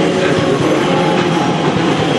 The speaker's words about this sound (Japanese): また西鉄の新しいやつが走ってきました。特急大牟田行き、もう目の前が大牟田駅です。